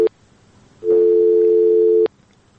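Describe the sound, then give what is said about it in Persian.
A telephone line tone sounds after a call drops: a short blip, a pause, then one steady mid-pitched tone held for just over a second before cutting off, with no voices. “فکر میکنم که تماس از شنونده ما قطع شد.”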